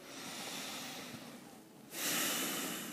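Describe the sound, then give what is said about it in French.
A slow, deep breath is drawn during a relaxation exercise, heard as a soft, airy hiss with no voice. The hiss grows clearly louder and brighter in its second half. “on commence par prendre trois respirations profondes.”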